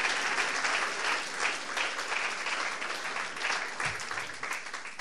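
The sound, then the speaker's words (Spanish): Sustained applause from a church audience during a Spanish-language sermon: dense, steady clapping that stays at an even, fairly loud level for the whole stretch, with no single voice standing out. “Vamos a darle fuerte el aplauso.”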